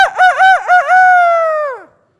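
A rooster crows once, loudly and alone: a few short choppy notes lead into a long, held, strongly harmonic call that sinks in pitch and fades at the end.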